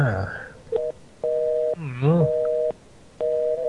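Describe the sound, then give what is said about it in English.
Telephone busy signal: a short beep, then repeated steady mid-pitched tones that switch on and off at an even cadence, with a voice briefly cutting in between them. “I like part of the show when the phone's busy.”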